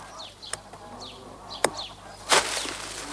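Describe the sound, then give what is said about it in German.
Goose wings flapping as a radio play effect for wild geese in flight: three sharp whooshing wingbeats stand out, the last the loudest, with faint high chirps between them. “Schlag mit den Flügeln. Hier bin ich. Komm auch her.”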